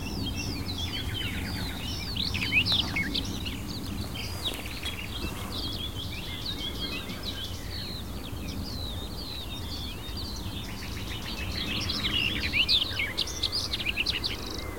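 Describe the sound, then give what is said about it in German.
Garden warbler song with a nightingale joining in: rapid, bubbling, tumbling high chirps and warbles run continuously and overlap throughout, over a steady low background rumble. “Wieder dieser plätschernde, sich manchmal überschlagene, hektisch vorgetragene, wohlklingende Gesang. Dieser Grasmücke begleitet von der Nachtigall.”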